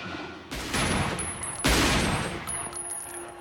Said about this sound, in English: Claude staggers back up to his feet as Mr. Bennett lines up another shot. Why couldn't you just... As he shoots him again, Claude turns invisible and falls back over the edge of the bridge.